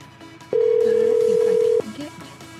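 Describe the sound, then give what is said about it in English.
A phone ringtone plays as one loud, steady, mid-pitched electronic tone lasting just over a second, with quieter background sound before and after it. “Let's check out this lady's ringtone.”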